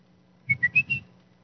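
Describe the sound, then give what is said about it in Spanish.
A signal whistle that a group of friends in Guastatoya, Guatemala used to call one another: four short whistled notes in quick succession, the later ones slightly higher, over a faint low hum. “Nosotros teníamos una forma de comunicarnos con los amigos allá en Guastatoya, en Guatemala. Y éramos 3 o 4 que usábamos el mismo silbido.”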